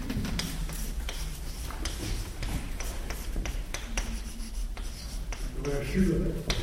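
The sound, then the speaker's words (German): Scratchy strokes of writing on a board as a philosopher's name is written out, a steady run of dry scraping with short taps, while a voice talks alongside. “Anaximander, und ich schreibe den dritten dieser milesischen Naturphilosophen auch gleich, Anaximenes.”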